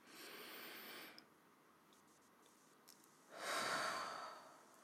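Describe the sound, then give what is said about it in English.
Slow guided breathing, one inhale through the nose and one exhale through the mouth: two soft, airy hisses of about a second each, separated by quiet and without talk. “Inhale in through the nose and out through the mouth.”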